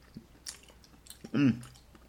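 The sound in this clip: Soft, faint chewing of sticky matcha mochi filled with sweet bean paste, a few moist bites and squishes, with a brief hummed voice midway.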